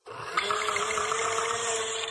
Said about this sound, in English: This should make a great fruit drink. I love making these in the summer.